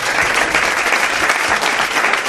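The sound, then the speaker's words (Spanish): Applause for a guest, loud and dense hand-clapping that fills the whole clip without a break. “Pido un aplauso para ella, que luego no nos va a dar tiempo.”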